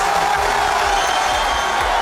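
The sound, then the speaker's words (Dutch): Crowd cheering erupts in Brazil as the national football team squad is announced with its star forward included, a dense, continuous roar of many voices holding at a steady, loud level throughout. “Dat gejuich ging zo'n 2 minuten door voordat bondscoach Ancelotti door kon met het bekendmaken van de selectie.”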